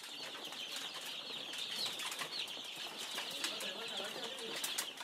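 Dense chorus of chicks peeping, raised in a village breeding setup under solar-powered heat lamps, a continuous high, busy chirping that stays even and faint throughout.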